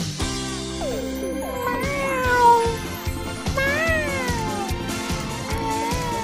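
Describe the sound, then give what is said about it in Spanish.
A person imitates a cat, letting out several drawn-out, wavering meows and yowls that swoop up and down in pitch over a steady, rhythmic low pulse. “Ok, gato del mal, sal de mí. Me está poseyendo el alma de un gato.”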